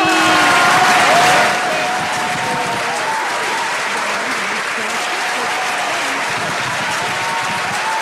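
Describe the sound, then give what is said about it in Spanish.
An audience applauds in a dense wash of clapping, loudest for the first second and a half, then continuing steadily at a slightly lower level to the end. “vamos a aplaudir y hacer bulla”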